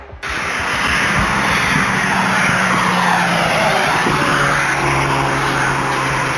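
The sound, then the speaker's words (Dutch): A car engine roars loudly and steadily as a Volkswagen Golf speeds off along a ring road toward the N717, a continuous driving noise that starts abruptly and then holds almost unchanged to the end. “Hun golf is goed te horen op hun razendsnelle vlucht op de randweg richting de N717.”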